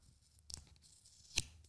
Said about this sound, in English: I'm doing ASMR. Taking off the sticker.